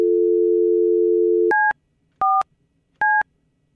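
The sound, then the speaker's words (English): A telephone's steady dial tone gives way to three short, evenly spaced touch-tone beeps as star 69 call return is dialed. “And since we now have caller ID, should I maybe call him back? Do you think we have star 69? Should I try it?”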